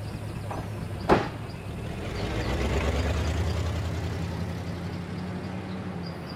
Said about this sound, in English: She slows to a stop, and he climbs in.